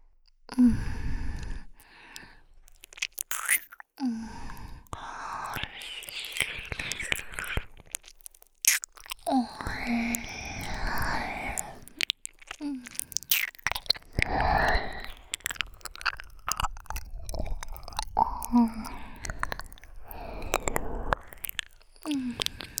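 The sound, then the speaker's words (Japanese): Ear licking in ASMR audio: wet, close smacking and slurping mouth sounds in irregular bursts, with soft breathy sighs between them. “それじゃ、主従契約耳なめ、始めちゃうね。”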